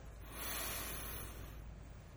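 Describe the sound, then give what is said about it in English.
A deep breath is drawn in at the start of a guided thanksgiving prayer: a soft, airy hiss that swells and then tapers off, faint and alone. “And so we will begin by taking a deep breath”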